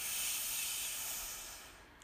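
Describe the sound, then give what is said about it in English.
A deep breath drawn in during a breathing exercise: a steady, airy hiss of inhaled air that holds level and then fades toward the end. “Releasing stale air. Deep breath in.”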